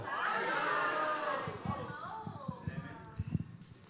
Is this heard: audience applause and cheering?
yes

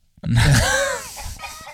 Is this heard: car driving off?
no

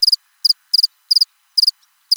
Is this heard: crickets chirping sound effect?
yes

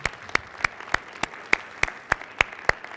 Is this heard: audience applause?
yes

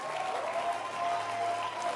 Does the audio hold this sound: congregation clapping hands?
yes

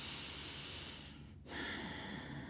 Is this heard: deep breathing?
yes

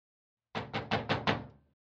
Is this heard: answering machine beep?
no

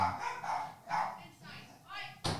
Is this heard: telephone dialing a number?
no

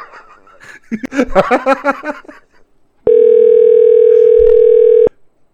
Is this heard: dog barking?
no

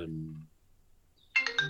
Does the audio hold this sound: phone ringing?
yes

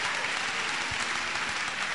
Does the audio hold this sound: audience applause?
yes

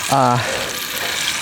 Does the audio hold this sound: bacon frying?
yes

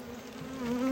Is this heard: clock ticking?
no

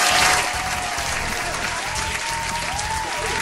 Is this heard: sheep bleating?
no

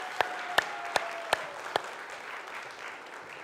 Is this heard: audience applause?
yes

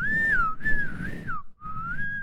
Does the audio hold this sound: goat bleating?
no

